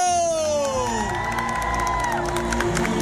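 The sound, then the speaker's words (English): An audience cheers at a film anniversary celebration at a theme park as a guest is introduced. The loud, steady crowd roar is laced with gliding whoops and whistles. “A big round of applause”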